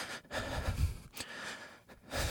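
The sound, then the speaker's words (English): Shallow, stressed breathing is demonstrated as a few quick, airy breaths in and out, short rasping bursts with brief gaps between them and no talking. “When we're in a state of stress, our breath responds accordingly. For most people, it sounds like this.”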